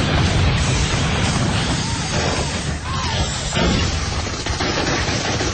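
A volley of gunfire rages in a radio-drama battle: a dense, continuous din of shots and crashing noise that stays loud throughout, with no clear pauses between individual reports.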